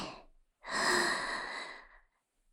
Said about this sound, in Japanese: 体がこわばってるんだから、ゆっくり息を吸って。